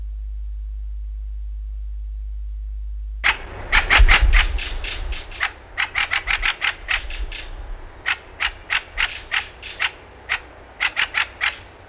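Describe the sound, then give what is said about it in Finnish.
Common rosefinch song: a silent start gives way to a quick, bright burst of short notes, then many more clipped notes in loose, uneven groups with small gaps between them. “Punavarpunen.”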